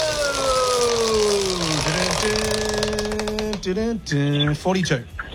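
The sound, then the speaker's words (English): A game-show prize wheel takes a big spin, its rapid clicking ticks spacing out as it slows toward a stop over a droning tonal background. “Big spin or little spin on the wheel? Big spin. That's a big unanimous spin. Unanimous big spin. Here we go.”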